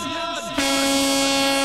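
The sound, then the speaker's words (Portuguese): Loud horn blast in a honking salute after a music float in Chapecó. It starts abruptly after a brief murky lead-in and holds a steady, bright, buzzing tone to the end. “Marcando buzinaço depois do trio Sintonia de Chapecó”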